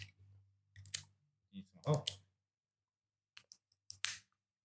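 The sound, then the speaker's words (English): A plastic seal is peeled off the top of a Nikka From the Barrel whiskey bottle, giving a few short, sharp crackling clicks in separate bursts, with people talking between them. “I'm trying to peel off the plastic on the top.”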